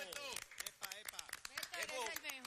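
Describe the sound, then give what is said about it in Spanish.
Audience applause to encourage a departing colleague, scattered hand claps ringing out amid lively overlapping voices and cheers that dominate the sound. “les propongo que le demos un aplauso para motivar a Betico.”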